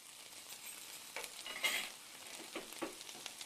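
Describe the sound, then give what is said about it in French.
Food frying and sizzling in a pan while cheese dishes are prepared: a faint, steady hiss of sizzling with small crackles and pops scattered throughout. “On fit cuire et frire et on prépara à l'avance maintes spécialités au fromage.”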